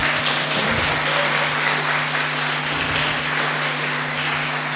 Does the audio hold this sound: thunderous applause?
yes